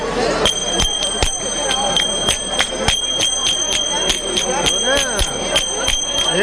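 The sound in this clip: Small cymbals struck over and over, a rapid series of bright metallic clangs with shimmering rings, while voices talk underneath.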